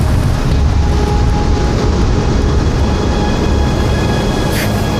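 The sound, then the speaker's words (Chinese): Strong wind roaring in a loud, unbroken rush of noise, heavy in the low end and steady throughout with no pauses. “这么大的风”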